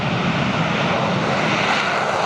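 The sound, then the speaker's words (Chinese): Carrier-based naval fighter jets take off in turn during live-fire attack training, producing a loud continuous engine roar. The broad, rushing wash of jet noise stays steady across the whole clip, with no voices. “多架战机依次起飞，在空中完成战术编组后，向目标海空域实施超低空隐蔽突防。”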